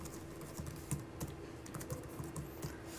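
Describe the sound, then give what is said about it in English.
Typing on a computer keyboard as a file description is entered: many quick, faint keystrokes in an uneven stream with no talk. “So what we can do is type a description, for example, this is my list of numbers.”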